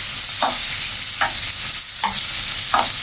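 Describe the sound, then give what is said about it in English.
A steak sizzles steadily in a pan of browning butter with garlic and rosemary. Four spooned bastes splash over it at even intervals above the constant hiss. “Just keep basting it up. Add the garlic flavor and everything here, the rosemary flavor and everything. Same thing here. Base it up.”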